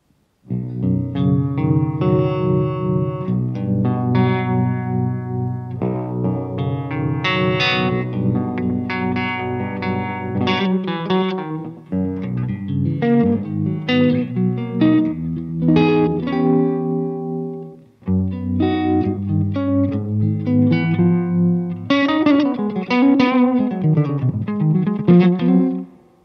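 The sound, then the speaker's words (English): Electric guitar through an amp with reverb and a Dark World pedal on its plate setting: sustained chords and melodic notes with long, washy decay. It plays steadily, dips briefly twice, then resumes. “Now, there's already reverb you're hearing from the amp, but I like to use the Dark World for the plate setting.”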